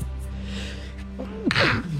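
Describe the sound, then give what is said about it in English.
One forceful human sneeze bursts out near the end of an otherwise quiet stretch, short and harsh. “Excuse me. What an ugly sneeze.”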